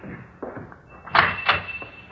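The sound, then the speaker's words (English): A door is opened with a couple of dull clunks and a scraping rattle over a hissy, noisy background. No one speaks. “open the door like before”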